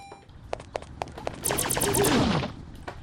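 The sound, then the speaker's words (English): Gunfire in a video game as the player shoots a robot riding a bike: a few sharp single shots at spaced intervals, then a rapid burst of quick shots, all fairly faint. “there's a robot on a bike that's trying to run you over. And you basically have to shoot him”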